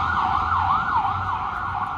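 A vehicle drives by with its siren wailing, the tone sweeping up and down in steady cycles over a low engine rumble, loud throughout.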